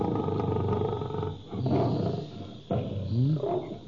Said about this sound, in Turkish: Bu da ne? Bu dağlarda aslan mı gezer?